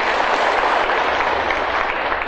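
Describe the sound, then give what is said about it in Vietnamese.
Applause from an audience at a monk's talk, a smooth, dense wash of many hands clapping together, loud and constant from start to finish with no voices over it. “Xin quý vị khen cho họ một tràng pháo tay, giỏ hoa này đẹp.”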